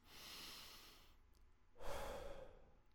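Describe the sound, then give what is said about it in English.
Deep breathing, in through the nose and out through the mouth: a long soft hissing inhale, a short pause, then a fuller, louder breathy exhale, with no talking. “let's take some deep breaths. Go ahead and breathe through your nose, out through your mouth.”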